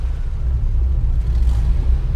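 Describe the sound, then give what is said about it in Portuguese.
Steady low rumble of a car engine as a child drives from a parent's lap, loud and even throughout with no clear rise in pitch. “Já que sabes conduzir, então agora acelera. Diz lá assim: acelera, carro. Acelera, carro. Boa. Acelera, carro.”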